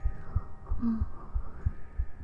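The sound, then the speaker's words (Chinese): An android's heartbeat: low, muffled thumps that repeat steadily several times, faint under a constant soft hum. “虽然是仿生人，但听着心跳声”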